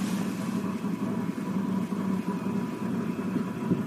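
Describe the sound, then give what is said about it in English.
A generator engine runs in cold weather, giving a steady low mechanical rumble with a faint buzzing hum that holds even and unbroken throughout. “I tried to fire up the generator, because you should be doing this all the time, and it's just... Maybe it's just too cold. Hang on, I'll try that.”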